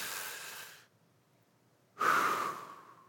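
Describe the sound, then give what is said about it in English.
Breathing: an airy breath trails away, then after a short silence a sharper, louder breath starts abruptly and slowly fades, with no talking. “our life is like a breath. That's how he describes it, a breath. Let me give you a picture of what that means.”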